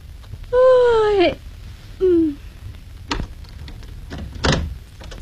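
A house door opens late at night, giving two drawn-out creaking squeals, the first long and the second short, followed by a couple of sharp clicks.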